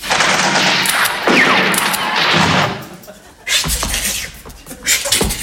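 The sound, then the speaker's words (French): Gunfire as troops advancing in tight ranks fire at will on command: dense, noisy crackling bursts fill the first half, then after a short lull several sharp, loud reports ring out. “À mon commandement, feu à volonté”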